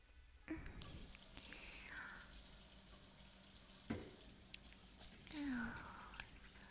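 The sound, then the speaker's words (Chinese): Water gushes from a tap to fill a bathtub, starting abruptly after a brief pause and then running as a steady, fairly faint rush with a few small knocks and splashes. “去吧，我去给你把水放好哟。”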